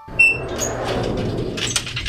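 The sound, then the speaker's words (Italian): A door closing, heard as a short scraping slide that gives way to a sustained rumble and ends in a soft bump, moderately loud with no voices. “Ma no, zio Billy, hanno chiuso la porta, non possiamo più entrare.”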